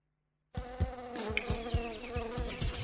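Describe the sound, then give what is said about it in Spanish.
Mosquitoes buzzing, a steady insect drone with layered harmonic tones that starts abruptly after a short silence and continues without break, alongside regular low thumps. “Está bien eliminar los mosquitos, pero eso no alcanza para frenar al dengue.”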